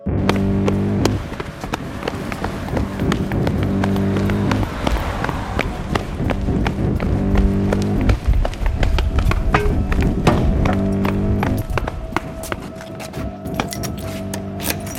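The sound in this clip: Footsteps of a person running home: many quick, rhythmic taps at a steady pace, heard over a looping rhythmic musical pattern.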